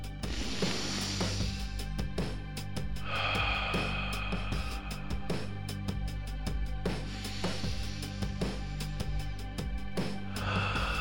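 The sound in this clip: Three big, deep breaths taken together by a sports team gathered close in a huddle after a tough game: slow, airy inhales and exhales spaced evenly over a steady tonal background, with no speech.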